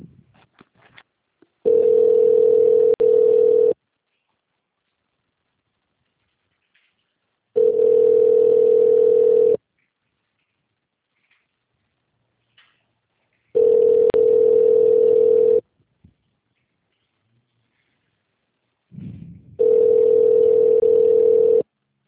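A telephone ringback tone plays while an office call is transferred to an extension: four long, steady single-pitched tones, each about two seconds, separated by even stretches of silence.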